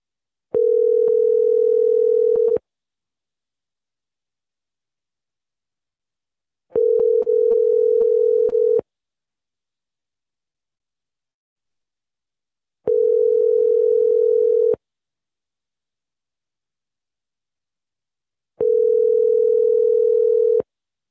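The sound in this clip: A telephone line left off the hook gives out its tone: four long, steady, low-mid tones, each about two seconds, separated by roughly four seconds of silence, with no voices.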